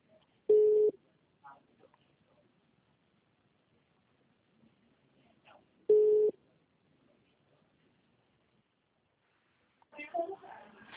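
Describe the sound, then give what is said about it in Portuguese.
A telephone tone after a dropped call: two short, clear electronic beeps separated by a long quiet gap, with faint noises between them and a voice near the end. “Acho que caiu a ligação, desculpa.”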